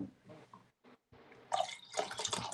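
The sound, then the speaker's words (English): Liquid is poured into a glass for a drinking game until it nearly overflows, a faint, broken trickle with short gaps at first, then a louder, brighter splashing pour through the second half. “Tell me when to stop. Go ahead and stop. That's about to overflow.”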